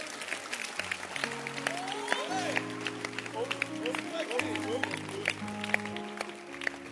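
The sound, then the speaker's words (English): Church audience clapping their hands for the pastor, a continuous patter of claps running under voices and sustained held tones throughout. “Clap your hands for your pastor.”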